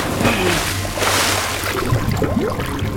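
Splashing, sloshing water in an overflowing bathtub as a man's face is roughly forced under, a continuous churning wash with a few sharper splashes toward the end.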